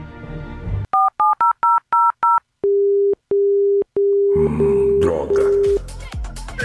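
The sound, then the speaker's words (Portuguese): Telephone keypad dialing as a call is placed: a quick run of six short two-tone beeps, then five long, steady, lower ringing tones with brief gaps between them. Other noise joins near the end. “Só um instante, vou ligar pro Gomes.”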